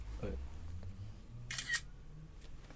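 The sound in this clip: Camera shutter clicking as a photo of two people is taken, a short sharp burst of snapping noise partway through, with people talking throughout.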